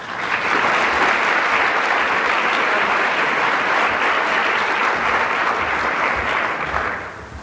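An audience at a society's annual meeting applauds the introduction of a Mayo Clinic Scottsdale doctor. The clapping is dense and even for about seven seconds, then tapers off at the close.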